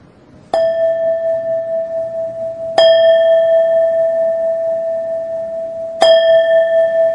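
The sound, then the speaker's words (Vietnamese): A Buddhist temple bell is struck slowly three times, a few seconds apart. Each strike gives a bright, clear ringing tone that sustains and fades gently before the next. “Rồi khi mình thỉnh chuông á, mình đừng có thỉnh nhanh. Cái tiếng chuông của mình nó phải khoan thai.”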